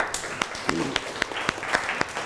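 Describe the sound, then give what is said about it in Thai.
Students clap for a classmate in a steady, rhythmic beat of sharp claps, while voices talk over them. “ขนนกปรบมือให้เพื่อนหน่อยครับ”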